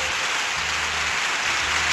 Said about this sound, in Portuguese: Mais palmas, oi, oi!